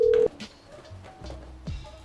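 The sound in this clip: An unanswered telephone call keeps ringing, with a loud tone burst at the start and then quieter, steady tones for the rest.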